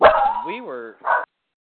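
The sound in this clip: Cooper, a pet dog, lets out a drawn-out howling yowl that rises and falls in pitch, followed by one short, loud bark.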